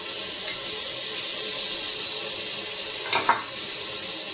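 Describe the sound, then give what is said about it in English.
Garlic sizzles in a frying pan as it sautés, a steady high hiss of frying that holds through the whole clip, with a brief louder stir or splash near the end and no talk. “So I add some garlic.”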